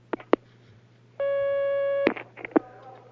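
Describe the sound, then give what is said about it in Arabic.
A single steady telephone line tone sounds for nearly a second as a call comes through on a phone-in line, framed by a few sharp clicks before and after. “هناك مكالمة معنا على الخط”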